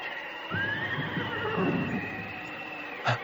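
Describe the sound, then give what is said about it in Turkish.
A white horse whinnies in a long, wavering neigh over a steady stormy hiss, followed by a short, sharp knock near the end. “Bir at sesi mi duydum?”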